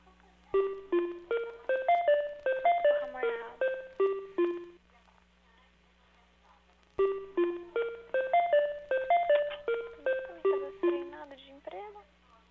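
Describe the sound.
Electronic hold tune on a telephone line while a call is transferred to an extension at a doctor's office; a short melody of stepped beeping tones plays twice, with a brief quiet gap between.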